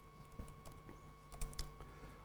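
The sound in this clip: Faint typing of a command on a computer keyboard: a few sparse, light key clicks spread unevenly across a quiet background.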